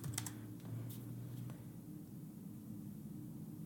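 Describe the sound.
Faint typing on a computer keyboard while entering a web link to test it, a few quick clicks early on, then quiet over a low, steady hum.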